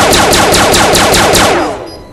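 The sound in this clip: A needle launcher weapon in a video game fires rapidly and continuously, giving a loud, fast, even stream of sharp repeated shots that ends in a fading tail.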